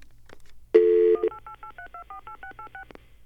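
Touch-tone dialing of a telephone number: a longer opening tone, then a quick, evenly paced run of many short beeps at shifting pitches.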